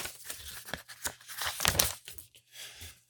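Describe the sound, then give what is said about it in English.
A paper envelope is torn open in a short run of crisp, crinkly ripping and rustling bursts, fairly faint, with a quieter tear near the end. “Open up that envelope. Let's see who won. Okay, hang on. Let me grab it.”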